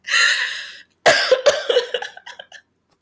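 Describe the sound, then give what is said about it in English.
A person coughs: a long, harsh rasping burst, a short pause, then two sharp coughs followed by several weaker, sputtering ones that trail off, with no talking. “I'm sorry, I gotta cough.”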